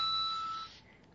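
A phone's email notification tone that resembles jingling coins: a bright, steady electronic chime that holds for under a second and then fades out.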